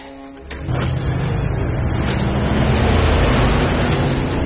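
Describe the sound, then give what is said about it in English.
Engine rumble of a black military-style FBI transport vehicle driving up to police cars near a house: a low, steady roar that swells in loudness after a quiet start, then holds level. “a black military-style transport vehicle marked FBI drives up to the police cars nearest the house.”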